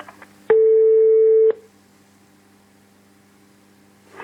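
A telephone call rings out on the line as a single steady, mid-pitched ringback tone lasting about a second, followed by a quiet, faintly hissing line.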